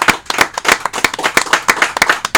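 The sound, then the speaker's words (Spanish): Applause from an audience: brisk, steady hand clapping in a fairly regular rhythm, loud and sharp throughout with no talk over it. “un aplauso muy querido por parte de nosotros para ustedes.”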